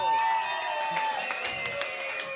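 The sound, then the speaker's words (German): A crowd applauds and cheers for the many backstage helpers at a stage dance event. Sustained whooping tones sit over scattered clapping and stay loud throughout. “Für die machen wir jetzt aber auch einen Applaus.”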